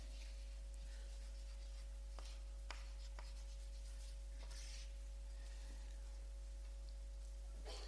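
Handwriting with a pen on paper: many short, dry scratching strokes come in uneven bursts over a steady low hum.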